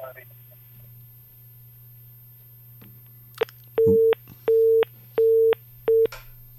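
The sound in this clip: A telephone disconnect tone after a caller hangs up on a phone-in line: a click, then four evenly spaced, loud, steady mid-pitched beeps over a constant low electrical hum.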